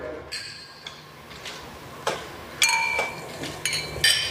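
Glasses clink together in a toast, a few light, bright chinks scattered across the moment, quiet and sharp, growing slightly more frequent toward the end.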